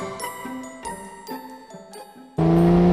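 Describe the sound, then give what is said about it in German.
A car accelerating at full throttle: after a tinkling musical jingle, a loud engine roar bursts in suddenly and holds as a strong, steady droning tone to the end. “Ha, Vollgas! Nun rast doch nicht so.”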